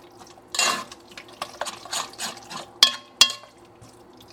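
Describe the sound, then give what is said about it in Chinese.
Wet, squelchy stirring of pork dumpling filling mixed with egg white, chives, shrimp and sesame oil, in uneven bursts, with a couple of sharp clinks of a utensil against the bowl near the end. “其实你大概看你现在搅拌的状态，你就会发现，就是肉啊，就是跟着那个蛋白和在一起，它其实会有那个粘稠性，所以它就会黏黏的。”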